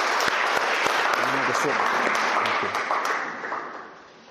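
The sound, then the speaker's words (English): At a church service, the audience applauds as guests take their seats: thick, continuous clapping from many hands with voices mixed in, slowly fading over the last second. “May the Lord richly bless you. Let's give them a hand again as they sit.”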